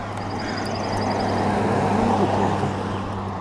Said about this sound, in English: Wait a minute, I hear. There's a vehicle.